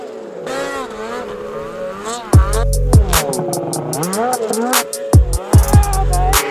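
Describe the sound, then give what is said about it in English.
Side-by-side utility vehicles roll past at the Haydays event, their engines revving in loud bursts and droning steadily beneath people talking. “We are still at Heydays, so disregard any of the background noise. People walking by us, side by sides rolling through.”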